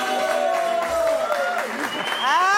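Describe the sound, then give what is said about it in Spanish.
Audience applause for dancers: a continuous patter of clapping crowd mixed with voices calling out, ending with a rising whoop over the clapping. “Un aplauso para ellas.”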